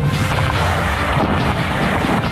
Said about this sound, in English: More incoming gunfire. Some Argentine batteries around Stanley.